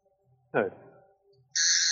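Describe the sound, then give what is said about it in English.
Sonic screwdriver sound effect played as a quiz clue: an abrupt, steady, high electronic whirring buzz that switches on near the end and holds at full loudness, after a brief earlier call and quiet background. “That was a sonic screwdriver”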